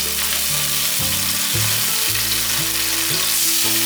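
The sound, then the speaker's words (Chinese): Two tablespoons of soy sauce hit a hot stir-fry for a vegan scallop dish and set off a loud, steady sizzle of frying that continues without a break and without any voices. “大概煸了十秒左右，可以放入酱油，放入两汤匙的酱油。”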